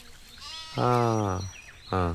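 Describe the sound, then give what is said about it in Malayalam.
A goat kid at home bleats twice: a long, wavering call followed by a shorter one cut off at the end. “അമ്മണി എടാ, വീട്ടിലെ ആട്ടിൻകുട്ടി.”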